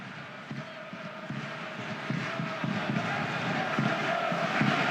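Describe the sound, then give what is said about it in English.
Crowd noise from Toronto fans massed behind the goalkeeper at a soccer match: a steady, dense roar with faint rhythmic bursts that swell slightly louder in the second half. “Crépeau, noise from the Toronto fans behind him, launches upfield.”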